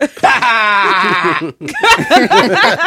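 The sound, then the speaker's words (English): A baby goat bleat is played from a soundboard. It is a loud, long, wavering cry, and after a brief gap a burst of choppier, shakier sound follows. “It's a baby goat. I stepped up my soundboard.”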